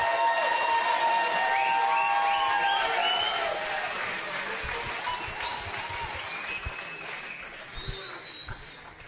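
Audience applause and crowd cheering greet a guest on a live radio show, a dense, steady wash of clapping that lasts about nine seconds and eases slightly toward the end.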